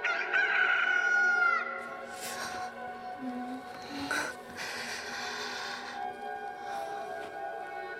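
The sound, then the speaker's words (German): A rooster crowing at dawn gives one loud, piercing crow at the start, then quieter, steady background noise continues with no further crowing. “Auf ein Stillleben von Feldwerkzeug springt hinauf ein Hahn, er schlägt die Flügel, bläht den Hals und verkündet den Morgen.”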